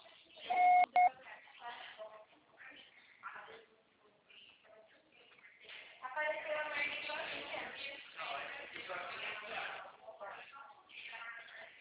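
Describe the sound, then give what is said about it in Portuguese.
A voicemail beep signals the end of a recorded greeting, one short, loud tone at a steady pitch near the start, after which a person talks quietly. “Grave seu recado. Seu depósito será tarifado após o sinal.”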